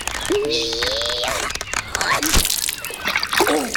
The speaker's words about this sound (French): Il a réussi à s'échapper. Il est retombé dans l'eau.